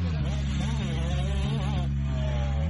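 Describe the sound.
Motocross motorcycles roar off the start gate into a sharp left-hander, a Kawasaki among them. The engines make a loud, dense, continuous snarl with a wavering pitch throughout.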